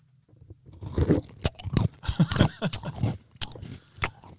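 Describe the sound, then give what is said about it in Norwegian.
Biting and chewing a kakemann pastry: crisp crunches and sharp cracks mixed with moist chewing, irregular and fairly faint, with no talk. “Det var lyden av en nydelig kakemann,”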